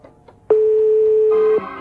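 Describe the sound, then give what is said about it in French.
A single long, steady telephone ringing tone on a line calling a public phone booth, a clear mid-pitched beep lasting about a second, with faint line noise before and after it. “Nous allons dans cette ville composer le numéro de cette cabine.”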